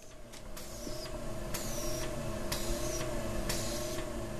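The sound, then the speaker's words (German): A laboratory pump in a cell lab pushes liquid continuously through long tubes. It gives a steady mechanical hum with a high whirring cycle that repeats regularly, about once per second. “Im Zelllabor des Karolinska-Instituts überprüft Philipp Jungeblut den Druck einer Pumpe, die kontinuierlich eine Flüssigkeit durch lange Schläuche fließen lässt”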